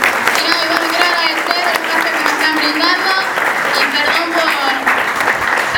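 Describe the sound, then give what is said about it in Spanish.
Applause from an audience at a public hearing: dense, steady clapping from a crowd fills the whole clip, with voices talking over it. “Está bien, aplauden.”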